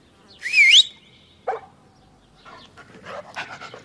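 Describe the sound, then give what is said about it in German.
A dog gives a high whimpering squeal, then a single sharp bark, followed by a series of quick, breathy panting sounds. “Dafür aber ein Perro. Und was ist das? Ein Hund.”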